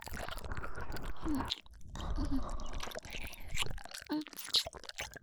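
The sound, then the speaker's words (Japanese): Soft, wet chewing of food, with many small squishy bites and mouth sounds repeating close up throughout. “では、もう少し刺激を与えるために少し噛んでみますね。”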